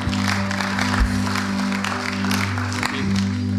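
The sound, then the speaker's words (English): Church audience applauding to welcome a speaker up to give a testimony: steady, dense clapping spread across the whole clip, carried over a low sustained tone. “So let's give Owen a hand.”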